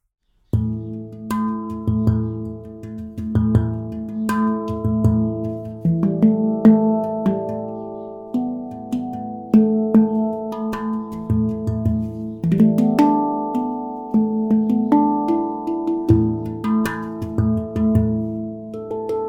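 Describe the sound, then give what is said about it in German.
A handpan plays a flowing melody of ringing, bell-like metallic tones whose notes overlap and sustain as they shift in pitch, continuous and resonant throughout. “so sieht jetzt die Handpan aus. Und dann zeig uns mal, wie die klingt.”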